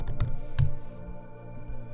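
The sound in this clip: Computer keyboard typing as a search is entered into a web browser: a few light, quick key clicks over a low steady hum, with no voices.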